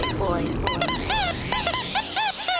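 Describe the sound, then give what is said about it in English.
Squeaky singing duck toy honking in many short, high, bright squeaks with a wavering pitch, set in a busy dance song with a steady low backing throughout. “This is only a singing duck toy”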